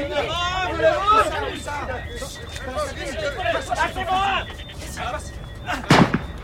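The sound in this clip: A rifle shot fired at crocodiles: one sharp, loud crack near the end follows several seconds of people talking over one another.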